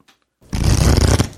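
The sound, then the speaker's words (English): An omen card drawn from a deck during a board game: a short, loud, papery rustle and slide lasting under a second after brief silence, followed by a faint second brush. “And you draw an omen card as you enter it”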